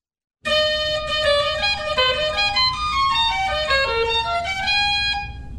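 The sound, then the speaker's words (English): Reedy, nasal tones from the clarinet register of a hand-turned organ, sounded by reed pipes with brass resonators. A fairly loud melody of many notes plays alone, with some tones overlapping and several lines stepping downward. “There are 17 notes in the clarinet register, and they sound like this.”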